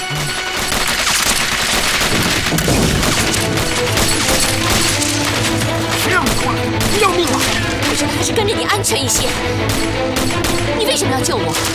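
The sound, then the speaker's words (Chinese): Gunfire erupts as soldiers besiege a laboratory building, with dense, continuous volleys of overlapping shots and crashes sustained throughout, while voices are heard over the shooting. “停止射击！”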